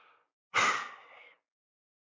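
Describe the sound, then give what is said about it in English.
A single deep breath: one soft, airy rush of under a second, heard alone against near silence. “Take a deep breath.”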